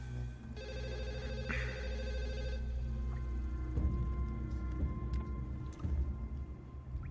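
A telephone rings as a call is placed, one sustained burst of bright, bell-like ringing, fairly quiet, followed by faint background noise.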